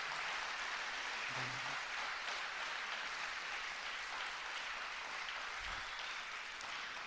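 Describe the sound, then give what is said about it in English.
Applause from an audience for Steve Green and Dick Tunney: faint, even clapping that runs steadily through the whole stretch without speech. “How about another round of applause for Steve Green and Dick Tunney?”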